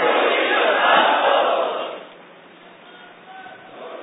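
Crowd at a religious gathering chanting a religious slogan in unison, loud and full for about two seconds, then dropping to a quieter murmur.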